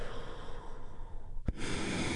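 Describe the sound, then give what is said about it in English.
A deep breath let out during a guided relaxation exercise: one brief, sharp burst of air followed by a steady, breathy rush that carries on to the end. “taking a big, deep, healing breath. All together, here we go, and release.”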